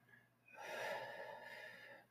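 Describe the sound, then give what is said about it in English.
A deep breath in during a guided meditation: one slow, soft inhale swells up after about half a second and tapers off toward the end, faint and alone. “Another big breath in”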